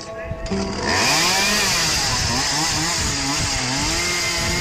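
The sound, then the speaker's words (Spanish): A saw cuts through a sofa with a steady, loud buzzing drone that runs almost the whole time, under continuous talk. “Aunque eso signifique cortar un sofá con una sierra.”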